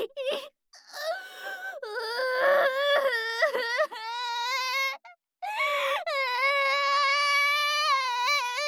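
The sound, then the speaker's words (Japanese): Someone bursts into tears and sobs in loud, wavering wails, heard as a few drawn-out crying bursts broken by short catching breaths. “泣き出しちゃった。”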